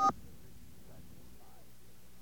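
A single touch-tone key press in a phone voicemail menu, heard as one brief dual-tone beep at the very start, followed by near silence with a faint low hum.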